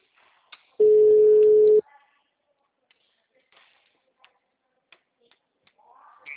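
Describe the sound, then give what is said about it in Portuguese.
Telephone ringback tone heard while placing a call: one steady, mid-pitched tone lasting about a second, followed by near silence with faint scattered clicks. “Será que vai me atender? Alô? Tá chamando.”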